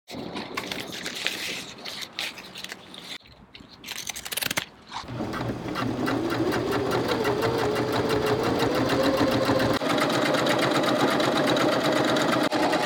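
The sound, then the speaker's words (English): A sewing machine stitches a patterned strap at a Detroit, MI strap business. After a few seconds of handling noise it settles into a loud, continuous motor whir with rapid stitch ticking; the motor whine climbs in pitch, then holds steady. “This pattern tends to bunch, so I have to like sew it a different way.”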